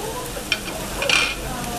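A dashi rolled egg omelette fries in a pan with a steady, even sizzle, broken twice by brief, sharper scraping or stirring sounds.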